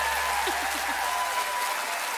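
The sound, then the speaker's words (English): Audience applause for the musicians on stage at a concert: a dense, steady wash of many hands clapping, loud and even for the whole stretch, with no gaps. “How about a round of applause for all of these people on stage, ladies and gentlemen?”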